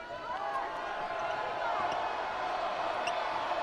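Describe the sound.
Basketball bounced by a player at the free-throw line during a BYU vs. Iowa State game in the fourth quarter, a few dull, evenly spaced thumps under a steady crowd murmur.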